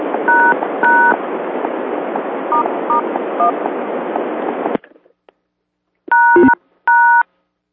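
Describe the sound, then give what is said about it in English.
A phone call drops as the phone's battery dies: hissy line noise with a few short dual-tone beeps cuts off abruptly into silence, followed by two longer, loud tone beeps. “that was my phone because the battery died, and so that's the sound of when the connection dies”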